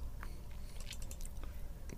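Wet, crunchy chewing of watermelon: a run of irregular squishy bites and crunches over a low mouth rumble, several sharp bursts bunched near the middle, with no talk.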